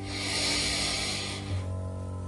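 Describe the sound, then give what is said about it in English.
A slow exhale during a guided breathing exercise: a steady, airy hiss that lasts about a second and a half, then drops away and leaves a low, faint hum. “Breathe in, exhale slowly, breathe in,”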